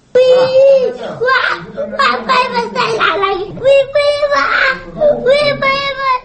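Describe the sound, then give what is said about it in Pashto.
A wounded schoolchild cries after a roadside bomb blast near a school. The high-pitched, tearful wailing comes in uneven, sustained bursts with sobbing breaks, loud and continuous across the whole stretch. “دا د زرمت ولسوالۍ اړوند د جانقیلو ښوونځي د هغه ماشوم زده کوونکي د ژړا غږ دی”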